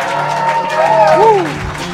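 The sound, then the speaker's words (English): Live comedy audience at a Kill Tony show in Los Angeles cheering and applauding, a dense, steady wash of clapping with shouted whoops rising through it, then easing slightly toward the end. “Make some noise Monday night.”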